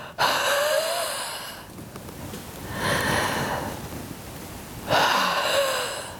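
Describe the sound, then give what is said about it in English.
Huff breathing exercise, with deep breaths in and forceful breaths out until they huff, heard as three loud, airy breath bursts spaced about a second apart. No one speaks. “Doing 4 huff breaths, whereas you take a deep breath in and you breathe out till it actually huffs.”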